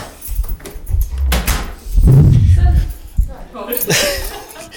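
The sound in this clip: A door being shut in a band rehearsal room: a sequence of loud bumps and rustling handling noise, followed by a sharp closing thud.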